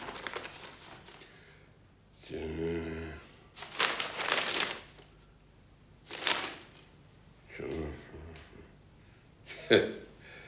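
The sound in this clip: Papers being handled as written mandates are passed over and read: several separate bursts of dry rustling and crinkling, some loud, between stretches of quieter sound, with a voice briefly present.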